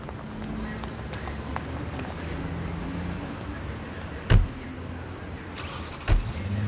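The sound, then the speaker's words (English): A car pulls away in front of a bustling airport, its engine a low, steady hum beneath background bustle, with two brief sharp thumps breaking through later on. “They smile, keeping eye contact as the car drives off.”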